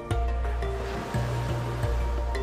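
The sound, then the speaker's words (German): Ocean waves rush steadily onto a beach, a continuous soft wash of surf beneath sustained, gentle musical tones, with no distinct breaks or crashes. “Du hörst die Wellen im Hintergrund rauschen.”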